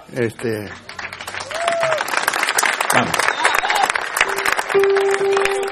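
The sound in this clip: An audience applauds at a live comedy-style event, a dense, steady patter of many hands that builds quickly after a brief voice at the start and stays loud throughout.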